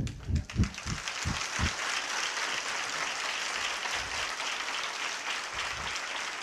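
An audience claps loudly during a church service, dense, sustained applause running the whole time at a steady, strong level, with a few heavier low claps near the start.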